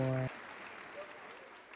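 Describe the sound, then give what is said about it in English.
Applause, steady and fairly quiet, follows a brief tonal note at the very start and continues evenly to the end. “Let's go ahead and clap for me. Let's clap for me”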